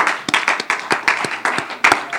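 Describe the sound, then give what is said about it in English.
Audience clapping in praise during a church worship service: many sharp, fairly evenly spaced hand claps at a steady beat over a continuous crowd murmur. “Can we give the Lord a hand clap of praise tonight?”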